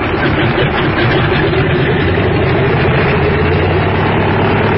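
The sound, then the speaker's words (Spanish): A small plane's engine roars during its takeoff run on a runway, a dense, loud, steady drone that holds its level throughout with no voices. “el pequeño aparato se deslizó velozmente por la pista y en unos segundos alzó el vuelo.”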